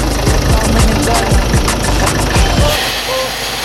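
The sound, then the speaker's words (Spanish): A car engine revs hard on a turbocharged launch, a rough, rattling mechanical roar that holds steady and then drops away sharply near the end. “¿Qué fue el turbo, qué? Estás escuchando. Estás escuchando. La arrancada. La arrancada. La arrancada.”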